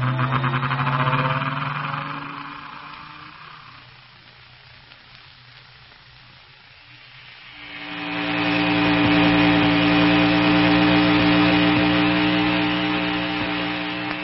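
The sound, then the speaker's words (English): A humming, engine-like drone serves as the sound effect for the fictional gyrocosmic relativator machine starting up. It begins loud, dips quieter midway, then swells back to a strong, steady, harmonic-rich whine. “And here goes the vise that'll make the gyrocosmic relativator that'll help run down Kane and Ardela.”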